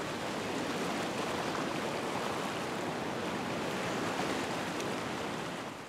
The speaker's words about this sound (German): Schwimmen wie in einer riesigen Badewanne. Und sogar mit Wellengang.